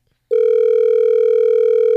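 A telephone line tone sounds while a caller is being dialed: after a brief silence, one loud, steady, unbroken tone holds at a constant pitch, with no voices.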